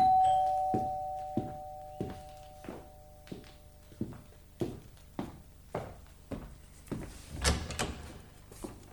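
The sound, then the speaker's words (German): A house's front door being opened after a doorbell chime fades out, then an evenly spaced series of soft thuds, with a louder knock and rattle near the end. “Ich gehe nur die Haustür öffnen.”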